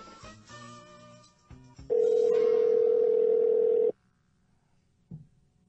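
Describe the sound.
A telephone ringing tone sounds during a phone call: after a moment of talk, one loud, steady mid-pitched tone lasts about two seconds, followed by quiet and a brief faint blip.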